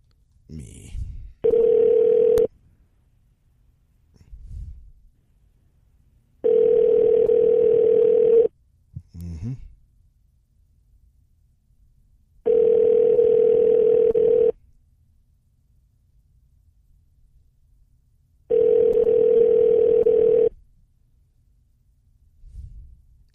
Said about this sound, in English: So. Let me try to call him again.